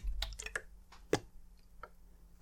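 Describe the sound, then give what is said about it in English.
Water sloshing inside a bottle, heard as faint, irregular plops and soft clicks spread unevenly across a quiet background. “But this is a sound of water inside a bottle. It's not quite as good as running waterfall,”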